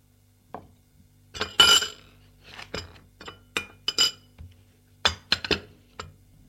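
A cup and spoon clink as coffee is served at breakfast: many light, sharp chinks and taps in an irregular rhythm, separated by short quiet gaps, with no talking.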